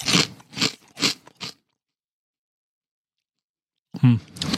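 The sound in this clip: Jalapeño chili cheese nuggets from Burger King are bitten and chewed. Four crisp, rhythmic crunches are followed by a long silence, then a short, noisy burst returns.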